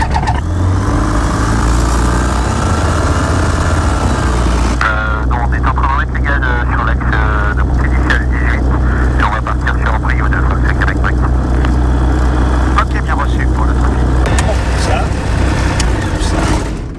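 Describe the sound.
A light plane's engine runs for a flying lesson after the pre-flight check, making a loud steady drone whose tone shifts partway through, with people talking over it.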